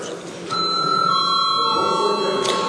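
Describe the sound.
A bell rung in a parliament chamber for lack of quorum: after a brief quieter moment it starts and keeps ringing steadily to the end, a bright, sustained metallic tone with a slight renewed strike near the close.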